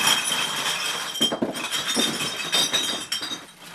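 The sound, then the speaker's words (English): Glass beer bottles cascade in an avalanche at a recycling center: a dense, continuous rush of bright clinks and rattles, steady and fairly loud throughout, with fuller crashing surges partway through before it thins toward the end. “A beer avalanche, Sidoriak calls it.”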